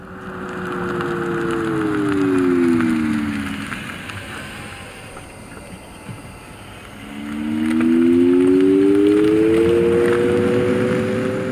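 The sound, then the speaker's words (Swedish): A tonal warning sound added to an electric vehicle at a crossing: paired steady tones glide downward and fade out, then return after a pause and glide upward, all over soft, continuous tyre and road noise. “Ett annat exempel där vi då har lagt på ett ljud, i det här fallet ett tonalt koncept.”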